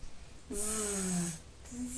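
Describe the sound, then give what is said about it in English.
A person imitates snoring with a drawn-out, low buzzing vocal tone that slides slightly downward, then a second shorter buzz begins. “That's when he's sleeping, he goes zzz. That's snoring.”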